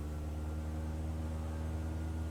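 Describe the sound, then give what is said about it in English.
An aircraft engine in a flight simulator video game drones steadily: a quiet, even, low-pitched hum with dense harmonics and no break. “so let's take this plane flying. Set the mouse mode to flight controls, release the parking brake, and press page up to increase the throttle.”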